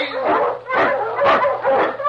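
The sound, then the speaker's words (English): Husky barking, an Eskimo lead sled dog in storm and snow, giving four loud, evenly spaced barks in quick succession. “The Wonder Dog King, swiftest and strongest of Eskimo lead dogs, blazes the trail through storm and snow for Sergeant Preston”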